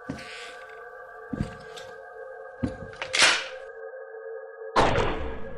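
A sci-fi weapon fires a shot: a few sharp, punchy bursts over a steady electronic drone, with a longer, louder burst near the end.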